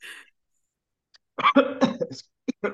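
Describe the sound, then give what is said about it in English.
Coughing after choking on saliva: a brief breath, then a quick run of several harsh, rapid coughs ending in a couple of short, throaty sputters. “excuse me. You okay? Yeah, about choked on my spit.”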